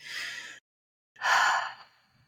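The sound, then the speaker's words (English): A long, slow exhale for calming stress, preceded by a shorter breath; after a brief silence, the main breath swells into a soft, sigh-like rush of air that gradually fades. “Long, slow exhale.”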